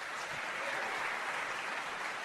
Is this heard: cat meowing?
no